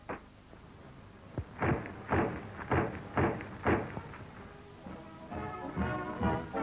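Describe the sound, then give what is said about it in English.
An Australian Owen submachine gun being test-fired: a series of loud, sharp shots at fairly even intervals, followed after a short pause by a denser, faster run of reports. “It's infinitely lighter than the German gun, more easily taken apart, and more deadly. Each gun is tested separately by an expert.”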